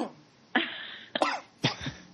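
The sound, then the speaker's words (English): Three short stifled sneezes, each a sudden breathy burst, fairly faint, with brief pauses between them. “If that was a sneeze. That was a sneeze.”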